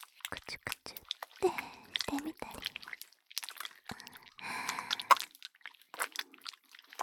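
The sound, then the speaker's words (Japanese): Oil is lathered in an ear in close-up ASMR, making dense, wet squishing and sticky crackles with small sharp clicks, running continuously and fairly softly. “旦那様のお耳、すっかりベトベトになって、オイルを泡立てるように”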